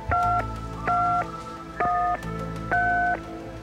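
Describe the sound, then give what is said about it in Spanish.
Telephone keypad tones as a phone number is dialed: four steady dual-pitched beeps at an even pace, each lasting about a third of a second, with a low hum between them and no talk. “Venga, vamos a marcar.”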